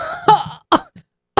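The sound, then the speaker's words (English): Sharp coughs burst out after choking on spit, three distinct hacks with short gaps between them and a softer throat sound in the middle. “I just choked on my own spit.”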